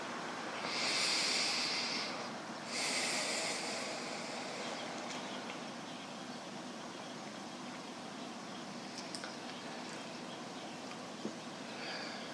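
Two slow, hissing breaths in and out before meditation, the second following shortly after the first, then a quiet stretch of faint background noise.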